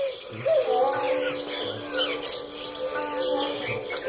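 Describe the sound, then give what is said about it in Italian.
Sparrows chatter in a tree at dusk, their many quick overlapping chirps forming a dense, steady twitter that continues without a break. “Occasionalmente un albero si riempiva di passerotti e del loro pasto cinguettio.”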